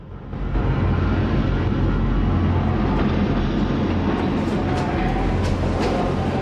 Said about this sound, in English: An image emerges of train carriages passing in the night.